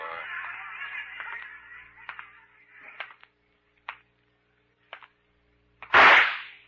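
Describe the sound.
A gunshot from a gun cracks out as a single loud, sharp burst near the end, following a few faint, sharp clicks.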